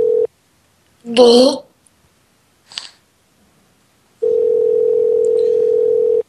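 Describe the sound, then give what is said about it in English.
A telephone call to a hotel's direct line: a steady mid-pitched dial tone, a brief voice and a short chirp, then the steady tone returns for about two seconds. “I think we're gonna dial this this hotel. It's direct-to-dial hotel. Direct-dial hotel, I should say.”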